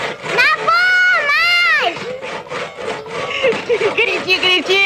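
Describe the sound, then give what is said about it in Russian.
Hand saw cutting into a pine tree in the forest: rasping strokes run continuously under a loud, wailing voice whose pitch bends up and down. “Базилио и Алиса подбегают с пилой к сосне. Пилят.”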